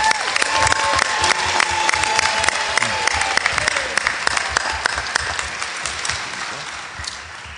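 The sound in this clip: An audience applauds the winner of a National Federation of the Blind award with dense, sustained clapping and some cheering, loud and steady at first, then tapering slightly toward the end.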